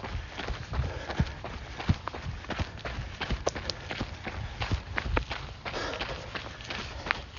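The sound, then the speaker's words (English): Running footsteps of shoes on the forest trails of Chapin Forest during a 24-hour ultramarathon, a steady, rapid rhythm of many soft, crunching steps that continues throughout. “What you're hearing? The sounds of my feet, my shoes on the trails here at Chapin Forest, running a 24-hour ultramarathon.”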